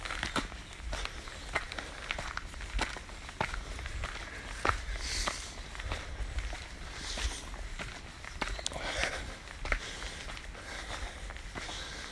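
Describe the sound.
Footsteps on an early morning walk, a long run of many soft, regular steps with a light crunchy texture over a quiet outdoor background.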